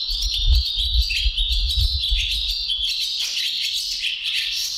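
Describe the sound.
Barn swallow song recorded in Bursa: a continuous, high twittering warble of rapid chirps and trills, steady throughout, with a low rumble in the background.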